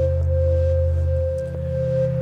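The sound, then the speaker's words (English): A dry Udo Super 6 synthesizer plays with no added reverb, producing steady, sustained tones over a low drone that shifts to a new note partway through. Faint, brief clicks sit on top, and no voices are heard. “I had the Udo Super 6 synthesizer playing some arpeggiated notes, now that I hear it dry.”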